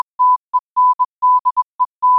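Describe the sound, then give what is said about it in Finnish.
A radio Morse code signal: nine clean, loud beeps at a single steady pitch, mixing long dashes and short dots in an uneven rhythm, with silent gaps between them. “Stendek on morsen aakkosilla,”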